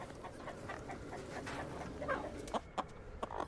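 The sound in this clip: A chicken clucks at dusk in a trailer park, a few short, sharp clucks in the last second over a steady, noisy background.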